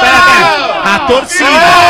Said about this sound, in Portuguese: Isso, a torcida. Pra São Paulo!